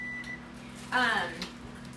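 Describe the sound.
An electronic timer going off, a thin steady beep at the start followed by a brief louder burst, with a voice around it.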